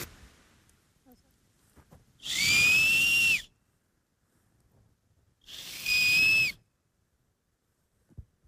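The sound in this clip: Two shrill whistles blown on a maple seed held like a grass blade in a forest. Each is a breathy, high, steady tone of about a second, and quiet separates them.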